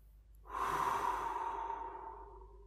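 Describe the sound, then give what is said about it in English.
One long, slow breath taken during a guided relaxation exercise: an airy rush that swells quickly, holds, then fades gradually over about two seconds, alone with no talk. “Take a few more seconds for getting in a relaxing state now. Breathe in”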